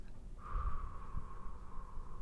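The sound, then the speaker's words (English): A long, deep breath is drawn and released during a roleplayed nurse-doctor cranial nerve exam, heard as a soft, steady airflow with a faint whistling edge that lasts about two seconds. “As deep as you can. Ready? Breathe in. Breathe out.”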